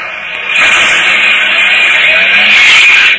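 Car engine revving loudly as the vehicle drives off, a sustained strained roar with a steady whining tone that holds through to an abrupt end.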